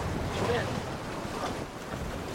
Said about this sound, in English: The undulating ocean rocks the boat.